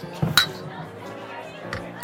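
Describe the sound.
Glasses clink together in a toast, two bright, ringing clinks nearly two seconds apart, with voices chattering around them.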